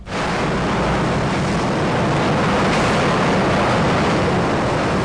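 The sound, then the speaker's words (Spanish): Subway train sound effect: a loud, steady rumbling roar of rail noise that runs unbroken throughout, with no distinct clacks or other events and no voices. “Supuestamente, según la computadora, eso era un subte. Fuimos en subte.”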